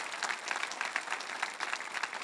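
Audience applause welcoming the online community during a morning Bible-prayer series gathering: a steady, fairly faint patter of many hands clapping, holding even throughout without voices.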